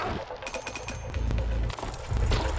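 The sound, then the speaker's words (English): A video-game gunshot fired as a distraction cracks sharply once amid a dense, rumbling game soundscape, with a few lighter clicks around it. “So now another distraction shot.”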